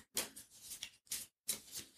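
Faint shuffling of handwritten index cards: a few short papery rustling bursts separated by brief silences.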